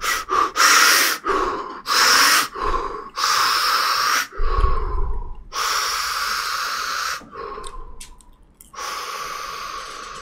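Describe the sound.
Breaths are demonstrated to show how to calm the heart, starting quick and then slowing toward a relaxed pace. Loud, forceful inhales and exhales come in short rapid bursts at first, then stretch into longer, slower breaths.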